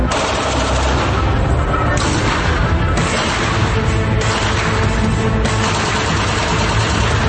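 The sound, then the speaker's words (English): Rapid gunfire from a Glock 18C machine pistol on full auto: a loud, dense, unbroken stream of sharp cracks with a booming low end that runs through the whole stretch without pauses. “So this is a Glock 18C machine pistol.”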